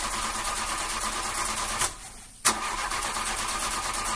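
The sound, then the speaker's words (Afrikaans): A taxi's engine runs loud and steady, cuts out for about half a second, then surges back as the vehicle starts to drive off, continuing as a constant mechanical roar with no talk. “Hoera, Ziek se taxi gaan nou ry.”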